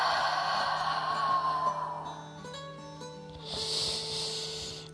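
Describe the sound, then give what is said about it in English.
An audible exhale in a guided breathing exercise: a long, soft, breathy outflow of air that fades, followed by a second gentle breath, over quiet sustained background tones. “Exhaling, audible exhale out.”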